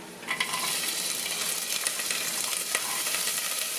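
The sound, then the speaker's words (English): Garlic and corn fry in olive oil in a pan, giving a steady, bright sizzle with a few sharper crackles and bursts scattered through it. No voices are heard. “We're gonna add a little bit more olive oil. And we're actually cooking the garlic, which is nice. Now we're gonna start adding in the corn.”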